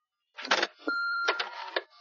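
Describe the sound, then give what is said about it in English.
Mickey Mouse's answering machine sounds: a short clattering mechanical burst, then a steady electronic beep, followed by more rapid clicking, all brief and fairly quiet. “Mickey Mouse's answering machine.”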